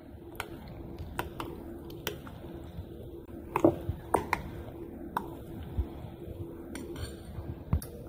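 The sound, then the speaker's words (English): Sour cream being stirred into homemade ranch dressing in a bowl: many irregular sharp clinks of a utensil against the bowl over a low, steady background, with no voices. “and then dump in 1 cup of sour cream, and start mixing that up real good.”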